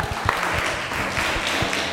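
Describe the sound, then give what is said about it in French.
A group applauds during a question-and-answer session about animals: a steady, fairly loud patter of many hands runs throughout, with a few sharper claps standing out. “Les vivipares, applaudissez.”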